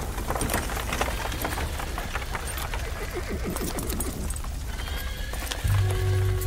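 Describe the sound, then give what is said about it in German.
Horses neigh and hooves clip-clop as chariot horses are unharnessed at an evening camp. A drawn-out whinny rises in the middle over steady hoof clatter, and a low hum joins near the end. “Die Pferde wurden von den Streitwagen abgeschirrt und man entfachte ringsumher Lagerfeuer.”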